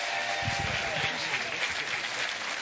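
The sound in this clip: Sustained applause from a church audience welcoming two guests, dense and steady throughout with voices mixed into the clapping.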